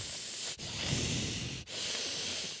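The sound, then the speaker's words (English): Deep, noisy breathing from someone concentrating: a few long, airy breaths with a hissing, rushing texture, separated by brief pauses, fairly quiet and with no talk. “You really breathe deep when you're concentrating.”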